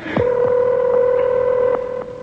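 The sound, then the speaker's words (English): Telephone keypad dialing a home number: a steady tone overlaid with several short beeps from the keys being pressed, with no talking. “Now, we call my house, we get one person, and one person only, and that one person is Vivian.”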